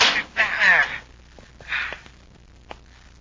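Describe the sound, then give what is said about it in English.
A spaceship hatch being opened, as a radio drama sound effect: bursts of hiss with a wavering metallic creak, a second hiss, then a short sharp click. “All right, Hap, let's see if we can get the hatch open. Yes, sir. I hope it doesn't lock from inside.”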